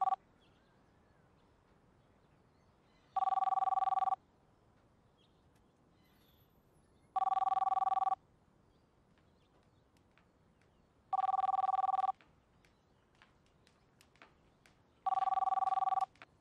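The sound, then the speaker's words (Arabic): Telephone ringing in a house, four evenly spaced ring bursts of about a second each, a bright, steady electronic tone separated by long quiet gaps with faint clicks. “ما في حدا بهالبيت ليرد على التليفون؟”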